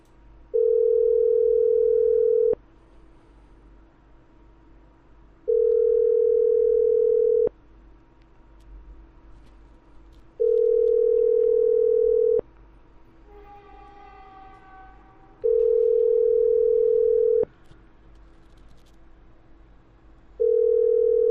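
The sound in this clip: Ringback tone of an outgoing phone call not yet answered: a steady mid-pitched tone, each about two seconds long, repeats at even intervals, with four full tones and a fifth cut off, over a low background hum.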